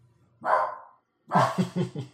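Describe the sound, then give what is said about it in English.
A beagle barks: one drawn-out bark, a short pause, then a burst of quick, sharp barks and yips. Fairly faint, with no voices. “way to break the fourth wall of this podcast with a dog barking”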